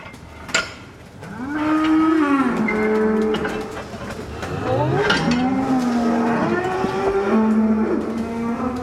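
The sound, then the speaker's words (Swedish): A herd of 55 dairy cows moos as they are let out to pasture for the spring grazing release, with loud, drawn-out moos overlapping and rising and falling in pitch almost without a break. “För nu kan jag säga att nu kommer jag ge klartecken här för att 55 mjölkande kossor ska ut på bete.”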